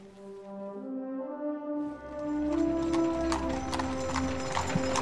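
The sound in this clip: Hooves clip-clop as a horse-drawn carriage arrives: a rapid run of sharp hoof strikes growing louder after about two seconds, over sustained low tones and a low rumble.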